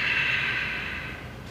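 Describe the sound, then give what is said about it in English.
A slow breath through the nose during a guided breathing exercise, a steady airy hiss that gradually fades. “We're gonna breathe in your nose and out of your nose. We're just gonna do 3 of them on my prompt. Inhale, exhale.”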